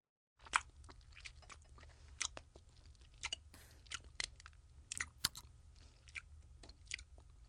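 Chewing on abalone, a run of many crisp, crunchy bites and squelches at an uneven pace over a steady low hum, with no talk.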